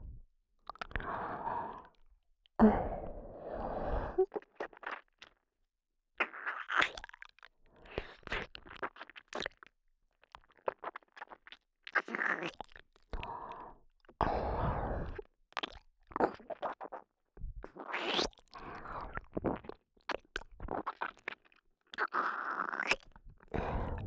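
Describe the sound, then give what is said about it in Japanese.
Close, quiet mouth sounds imitate eating the listener's ears: wet smacks, crunchy clicks and nibbling bursts come in irregular clusters throughout, with no talking. “お耳は、どんな味がするのかな。いただきます。”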